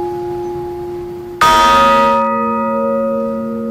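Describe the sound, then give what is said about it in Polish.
Church bells ring in a belfry: a steady humming tone from an already sounding bell is joined by one loud, sudden bell strike. Its bright metallic clang then decays into long, layered sustained tones that fade slowly. “Jesteśmy na dzwonnicy. Widzimy dzwony. Możemy je też usłyszeć.”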